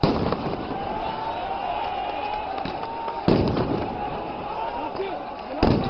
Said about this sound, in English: That's the sound of troops firing tear gas into a crowd of protesters who'd breached the outer edges of the US embassy compound in the Iraqi capital, starting fires and smashing windows.